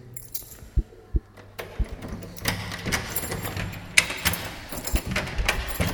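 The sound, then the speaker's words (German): Keys jangle while someone searches for the right key at a studio door: a few sharp metallic clicks, then a denser, continuous rattling and clinking of the key ring. “Wenn ich jetzt den richtigen Schlüssel rausfinde.”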